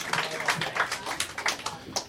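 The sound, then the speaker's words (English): Audience clapping along at a live music event, a steady rhythmic beat of sharp, moderately loud claps repeating at an even pace. “Clap your hands”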